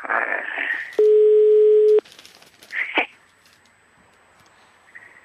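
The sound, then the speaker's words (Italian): A telephone tone, one steady electronic beep held for about a second, sounds between brief stretches of voices. “Un telefono che squilla”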